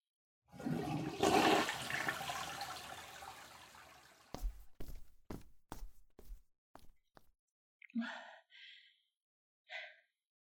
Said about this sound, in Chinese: 老公啊，你上完厕所冲干净啊，然后把防扇打开，赶紧出去吧。